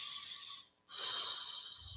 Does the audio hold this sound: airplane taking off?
no